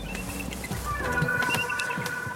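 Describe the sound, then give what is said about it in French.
Calls of a large eagle, disturbed by visitors in a zoological park. Several faint, harsh calls sound over a steady low rumble. “Et l'aigle qui est là, regardez Lise. Ah non, il est même très gros, magnifique, vraiment très beau. Et puis il n'est pas content. On l'a dérangé.”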